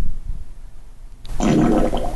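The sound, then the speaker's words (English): A fart sound effect played by a smart speaker bursts in after a moment of near silence: a sudden raspy, sputtering blast that holds loud and rough until the end. “was a bad one. Do you want to hear another one? Yes, I would like to hear another fart”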